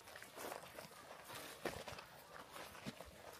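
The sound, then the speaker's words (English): Footsteps crunch through dry leaves on dry ground in a faint, irregular run of brittle crackling steps. “Well, this is nice and stealthy. Not noisy at all. Walking around in cornflakes.”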